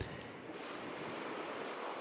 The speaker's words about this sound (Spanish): mar azul de aguas cristalinas en calma. Os mojáis los pies con las suaves olas que se acercan a vosotros y vosotras.